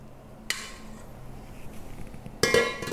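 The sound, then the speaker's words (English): A mixing bowl is cleaned out during meringue-making. A sharp clink of a utensil against the bowl opens, a quiet scraping stretch follows, then a louder clattering burst closes it. “let me just clean out my mixing bowl.”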